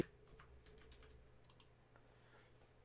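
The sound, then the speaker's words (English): Typing on a computer keyboard: faint, scattered key clicks in an irregular rhythm over a low steady hum, with no voices. “Just type in Loki, Jeffrey”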